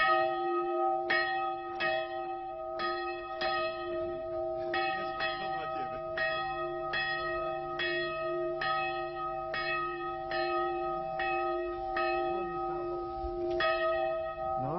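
Church bells ring in many repeated metallic strikes over a steady, sustained resonant hum, the peals following one another at a fairly even pace throughout.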